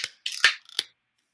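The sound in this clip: A beer can cracks open with a few sharp metallic clicks and a short fizzing burst, quiet and brief, with no talk.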